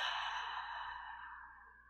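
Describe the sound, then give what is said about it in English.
A deep exhale during a breathing exercise: one long, breathy outward breath with a soft airy hiss that slowly fades over about two seconds, with no talking. “We're going to take a deep inhale. Exhale out.”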